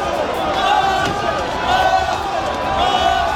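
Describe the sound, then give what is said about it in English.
Crowd of football fans cheering in a London street after a Champions League final, a dense, loud, continuous mass of voices that stays steady throughout. “There's been fireworks and pink smoke, and everyone is cheering.”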